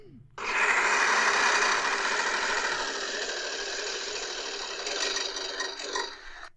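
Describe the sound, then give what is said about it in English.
Spinning a prize wheel makes a steady, rattling whir that starts abruptly and runs loud and even for about six seconds, easing slightly in level as it keeps turning. “Okay, so I'm going to spin this wheel. Mm-hmm. The wheel of misfortune. Here we go.”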